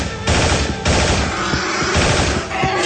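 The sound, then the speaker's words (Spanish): Machine-gun fire in a dramatized shooting scene, with loud continuous rattling bursts broken by a couple of brief pauses. “Juan saca su ametralladora y dispara contra todo lo que se mueve amenazante.”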